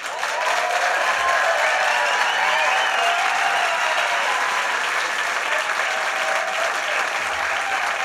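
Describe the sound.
An audience applauds to welcome a band onto the stage. The clapping is dense and steady and holds at an even loudness for about eight seconds.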